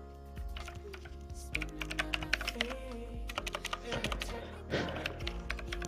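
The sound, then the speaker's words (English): Typing on a computer keyboard produces a fast, uneven stream of many crisp key clicks and taps, with a few heavier strokes, over a steady low background hum. “Yo, like my typing?”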